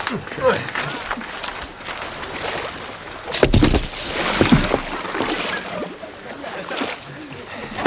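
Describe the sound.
Canoes are paddled on water with splashing and sloshing strokes, while voices call out over the churn.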